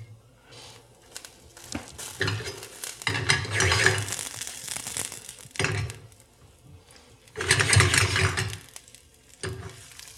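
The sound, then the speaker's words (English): Shallots sizzling in olive oil in a pan, heard as two loud surges of hissing, crackling sizzle amid quieter stretches of frying noise, with no voices. “I'm going to dump a nice glug of olive oil in it. I'm going to be pretty generous with it because this olive oil will form the basis of the vinaigrette. And I'm going to start with my shallots.”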